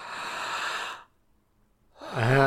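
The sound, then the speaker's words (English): A person imitates very deep breathing: a long, loud, breathy exhale lasting about a second, then near silence, then a voiced, sighing breath at the end. “breathing is a big part of it. So, you know, like very deep breaths.”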